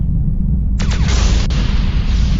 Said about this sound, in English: Target acquired and phasers locked. Ready to fire on your command, Captain. Fire phasers.